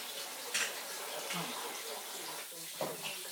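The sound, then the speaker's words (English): Water runs from a tap as someone washes their hands, a steady rushing stream broken by a few brief splashes. “Okay, I need a coffee. I can't believe I was there. Let me wash my hands first.”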